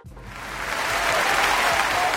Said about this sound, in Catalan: Aquest mes que merescudíssim aplaudiment per lo gitano blanc